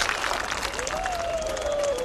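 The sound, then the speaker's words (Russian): Audience applause welcoming a maestro just back from Milan to the piano, a steady, dense patter of clapping that holds at an even level for about two seconds. “Маэстро только что из Милана, поэтому поддержим его аплодисментами.”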